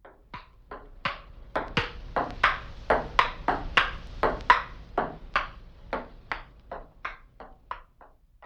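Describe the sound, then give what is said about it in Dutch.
A ball being hit from left to right as a stereo speaker test: many crisp, hollow pings in a steady, even rhythm, alone and fairly faint. “Hoort u de bal van links naar rechts geslagen gaan?”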